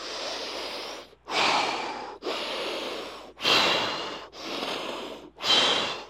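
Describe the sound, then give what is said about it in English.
Huge, deep breaths from a morning breathing exercise, drawn in and pushed out forcefully through the body in a steady series of long, loud, rushing breaths with brief pauses between them and no talking. “I did, I think, 10 huge deep breaths that sounded like this.”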